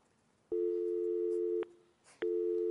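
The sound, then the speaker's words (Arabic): A telephone line tone sounds after a call disconnects: a steady, low-pitched beep holds for about a second, falls silent for about half a second, then resumes and continues to the end. “طيب، انقطع اتصال مع عبد الملك”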